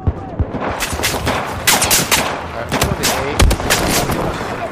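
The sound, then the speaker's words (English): Rapid gunfire from an enemy machine gun in a video game: a dense, loud run of sharp shots with a few heavier bursts standing out, continuing for several seconds. “I have eyes on an enemy machine gun.”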